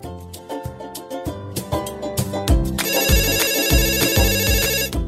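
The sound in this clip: A phone ringtone plays as a melodic electronic tune over a thumping beat, which turns brighter and busier halfway through and continues with no talk.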